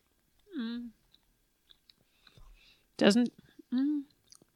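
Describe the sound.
Chewing on a protein Pop-Tart, with soft mouth clicks and crunches between a few short hummed murmurs, all fairly faint.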